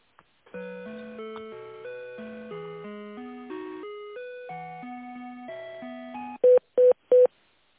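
Telephone keypad tones dial another number during a business call: a rapid run of many steady two-tone beeps, then three short, louder tones at the end. No one speaks.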